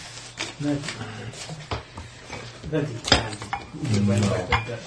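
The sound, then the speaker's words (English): Metal pots clank and rattle as they are stacked to make room on a table, with a few scattered clattering knocks under people talking. “Sorry, listeners. Stacking pots to make more room.”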